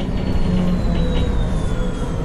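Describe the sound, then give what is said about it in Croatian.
A train pulling into its final stop at Ilijaš: a steady, loud, low rumble of wheels and carriage noise throughout, with a faint high whine running through it. “Evo mislim da stižem. To je to, Ilijaš, jel, zadnja stanica.”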